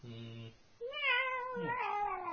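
Cats meowing in whiny, drawn-out cries: one short call, then a longer wavering meow that another cat's lower cry overlaps near the end.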